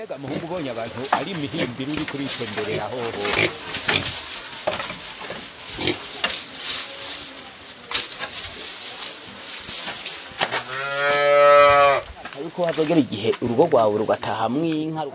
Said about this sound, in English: We hear their farm animals making noise nearby.